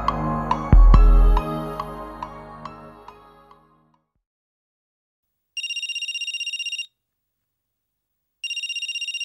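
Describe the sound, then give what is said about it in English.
A phone ringtone sounds in two bursts of high, rapidly pulsing electronic tone after a passage of fading musical notes. The second burst is cut off at the end. “Hey, someone's calling you. Yeah, I noticed.”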